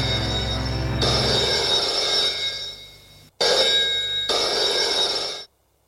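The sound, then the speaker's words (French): A telephone rings twice, each a long, loud, bright electric bell trill, separated by a brief gap before a sudden stop. “le téléphone sonne.”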